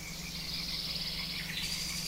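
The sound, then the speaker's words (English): Frogs and birds call outdoors in a dense, continuous chorus of high, shrill trilling and chirping that holds steady and unbroken throughout, with no talking. “we're going to let the frogs and the birds take it out.”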